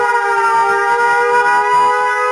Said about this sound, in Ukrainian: Увага! Громадяни! Повітряна тривога! Якнайшвидше дійдіть до захисного укриття або укрийтеся на місцевості.